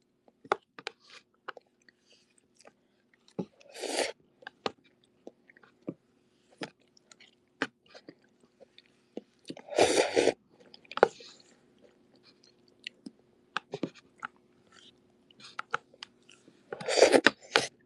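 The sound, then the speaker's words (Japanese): Someone chews and crunches garlic pieces that float on a bowl of soup. Three louder crunching bursts stand out among many small, quiet mouth clicks and squishes, with no talking. “ニンニクが無限に浮かんでて、今頑張ってそれを食べてるんですけど”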